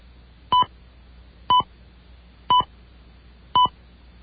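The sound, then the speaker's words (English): Four short electronic keypad beeps from a telephone sound quietly and alone at an even pace, about one second apart, as a name is entered into an automated phone directory. “To enter your name, dial your last name followed by first name until recognized.”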